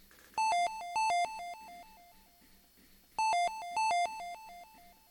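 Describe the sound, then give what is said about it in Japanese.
Convenience store entrance chime: a bright electronic melody of quick ringing notes, heard twice with a short pause between the two plays. “ではここで1曲いきましょう。コンビニの入店音です。”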